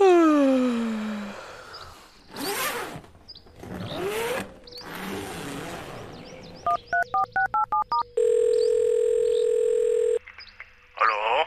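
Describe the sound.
Telephone dialing while calling a biologist at Berlin's Museum für Naturkunde: a quick run of about six short keypad beeps, then a long, steady, high dial tone. Earlier whooshing noise bursts come first, with no speech over the tones.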